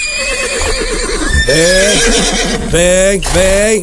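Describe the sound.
Loud, shrill whinnies from a big horse in a rodeo company's pasture: a few harmonic neighs with wavering pitch follow one another in quick succession.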